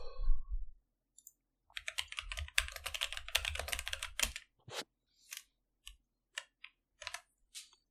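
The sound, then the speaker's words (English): Typing on a computer keyboard: a rapid run of clattering keystrokes, then slower, scattered single key clicks with short silences between them. “Do I even need to type my sitcoms out?”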